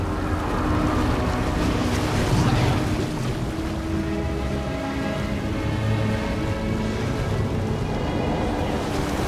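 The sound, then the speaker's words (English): Ocean water churns and froths around the bow of a large ship as it sinks beneath the waves. A continuous rushing wash with a low rumble underneath holds steady throughout, and no one speaks. “The surface of the water froths as the bow of the ship finally sinks beneath the water, and the Poseidon is gone.”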